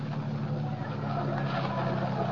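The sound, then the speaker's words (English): A car engine rumbles steadily as the car drives through an amusement park gate to park, a continuous low hum at an even level with no clear change. “Drive right through the gate. You can park alongside that car.”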